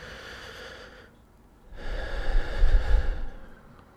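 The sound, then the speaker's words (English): A deep breath in and out during a tapping exercise: a soft, airy inhale, a brief pause, then a louder, longer breathy exhale, with no talk. “Side of the hand, nice deep breath.”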